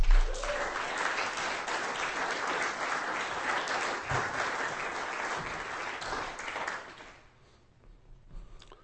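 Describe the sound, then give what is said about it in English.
An audience applauds a poet at a poetry reading: a dense, steady clatter of many clapping hands that holds for several seconds and then quickly dies away. “Give her a hand. We have two poets left. Would you please welcome Dwayne to the stage?”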